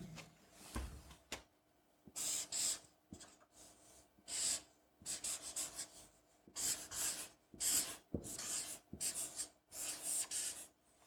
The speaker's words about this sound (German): Und diese zwei Punkte, die werde ich einmal mit dem Stift hier an das Whiteboard malen.